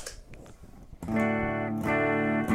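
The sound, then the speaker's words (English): Distorted electric guitar through a Joyo Ultimate Drive distortion pedal, a Joyo boost and an amp-sim preamp: a quiet, noisy first second, then a loud, sustained chord restruck once and left ringing. “typical signal chain once again. It goes into the distortion pedal, the ultimate drive from Joyo, then it goes into the roll boost in Joyo, then it goes into what we are using for the preamp”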